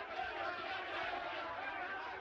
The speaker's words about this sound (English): Led by constables, the crowd reaches the town hall. The constables hold the crowd back at the entrance.